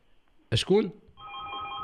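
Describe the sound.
Telephone ringing on a live radio call-in show in Taroudant, Morocco: a brief voice exclamation, then a steady, bright electronic ring tone that holds evenly to the end.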